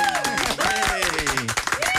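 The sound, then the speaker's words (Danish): Hosts clap and cheer to welcome back returning guests, with loud voiced shouts and whoops riding over a steady bed of applause throughout. “Og det er den velkomst, vi helst gerne vil give alle gæster, vi har her. Men vi burde faktisk lave en længere klapsalve for jer”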